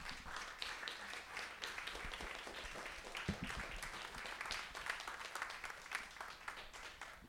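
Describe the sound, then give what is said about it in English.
An audience at a literary festival reading gives its readers a round of applause: many hands clapping in a continuous, crackling patter, fairly faint and even in level, with no pauses. “Can we give a round of applause for our readers, please?”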